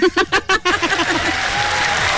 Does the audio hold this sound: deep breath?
no

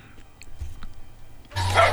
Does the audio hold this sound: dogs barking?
yes

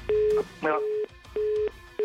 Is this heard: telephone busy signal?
yes

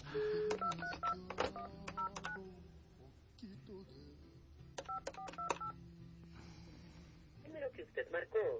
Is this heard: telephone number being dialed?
yes

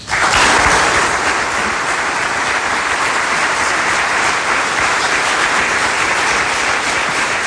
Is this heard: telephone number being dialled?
no

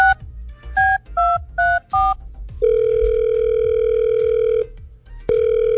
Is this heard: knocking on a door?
no

